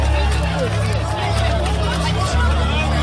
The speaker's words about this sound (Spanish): Así se vivió en la playa del Arenal el momento en el que el eclipse alcanzó su fase total. La playa estaba abarrotada y cuando se hizo de noche en pleno día llegaron los gritos y los aplausos de las miles de personas que estaban presentes.